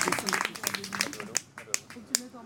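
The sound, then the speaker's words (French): A few scattered, sharp claps from an audience at a French stage performance, following a stretch of talking voices and spaced apart in the quieter second half. “On applaudit bien fort Will quand même. Bravo!”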